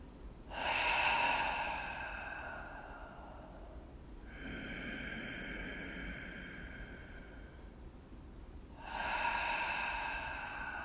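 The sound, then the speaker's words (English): Slow, deep human breathing during a guided walking meditation: a few long, airy breaths, each drawn out over several seconds, soft and unhurried with no talking. “Just notice your feet and listen to me breathe.”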